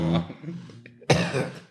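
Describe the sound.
Coughing after choking on weed smoke: a few harsh, loud bursts of coughing and throat clearing, with voices mixed in.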